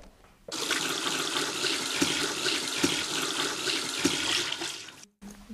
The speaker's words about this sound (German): Aber ich würde jetzt mal die Haare waschen, ja.